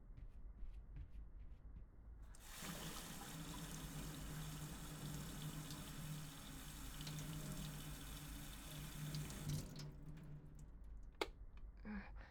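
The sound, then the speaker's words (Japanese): Water running from a kitchen tap into a vessel for boiling: a faint, steady rushing stream that starts after about two seconds and stops near ten seconds, with small clicks before and after. “あ、そろそろお湯沸かそう。”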